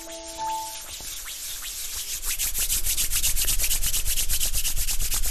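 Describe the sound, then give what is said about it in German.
Hands rub briskly together in a rapid, dry rasping. It starts softly, then grows louder and steadier after a couple of seconds, continuing in quick back-and-forth strokes. “Genau, und dann die Hände aneinander reiben.”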